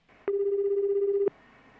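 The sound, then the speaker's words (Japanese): An outgoing telephone call rings: one steady, even-pitched tone lasting about a second, then quiet line hiss. “お電話をしてみたいと思います。”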